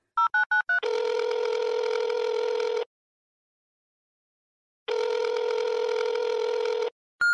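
Phone dialing and ringing on a call to a recorded message line: four quick dialing beeps, then two long, steady, buzzing ring tones separated by silence, and a brief final tone.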